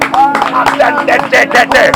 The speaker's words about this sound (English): Somebody open your mouth and clap and